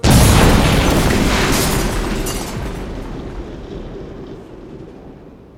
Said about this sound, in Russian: за мгновение до того, как взрывной волной выбило окна